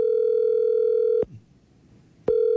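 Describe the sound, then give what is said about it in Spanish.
A telephone ringback tone sounds while a call is being dialed: a steady, loud, pitched tone holds for over a second, stops for about a second of near silence, then starts again. No voices are heard. “Está marcando”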